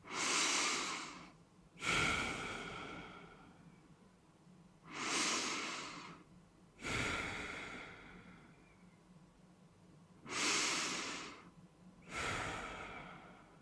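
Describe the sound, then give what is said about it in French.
Deep breathing during a guided relaxation exercise: six slow, breathy rushes of air, heard alone and grouped into three long inhale-and-exhale pairs with quiet pauses between them. “Commençons par trois grandes respirations.”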